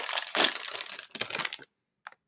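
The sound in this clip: Crinkly plastic crackling and rustling as a bloated packet of stale pork scratchings is opened. The noise comes in two dense bursts of crunching, followed by a pause and one short, faint crinkle.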